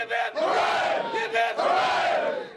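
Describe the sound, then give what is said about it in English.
An NFL team shouts a hip hip hooray cheer in unison after a big win, loud massed male voices in a few bursts, the long hooray swelling and then falling in pitch before fading. “Washington Redskins head coach Jim Zorn led his fellas in a cheer after a huge win.”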